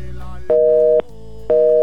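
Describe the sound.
Telephone busy signal sounding after a call to a radio station is hung up: two loud, steady tone bursts separated by a half-second gap, with no voices.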